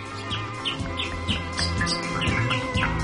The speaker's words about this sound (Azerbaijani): Quşlar nəğmə oxuyur.